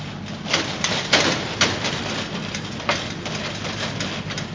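A recycling truck's engine drones low and steady from the back of the vehicle on a bumpy route. Irregular knocks and rattles from the jolting ride clatter over it.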